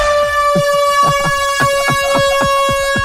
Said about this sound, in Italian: ha mollato uno scorreggione tipo tromba da stadio, tipo così.